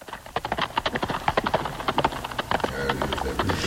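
Clip-clop of a horse's hooves, its mane plaited, as a prince rides out alone; many crisp, quick hoof strikes fall in a steady trotting rhythm, giving way to a denser wash of noise near the end.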